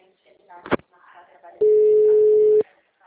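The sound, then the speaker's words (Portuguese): A single steady ringback tone, about one second long and mid-pitched, sounds on an outgoing phone call while the caller waits for an answer. It follows brief faint talk and a short click, then the line falls quiet. “eu tô ligando, ele atende, escuta.”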